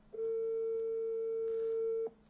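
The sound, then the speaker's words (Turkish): Phone ringing tone from an unanswered call to a waiter, a single steady mid-pitched beep held for about two seconds, alone over faint background hiss. “Dur şunu arayayım o zaman. Garson yok abi açmıyor.”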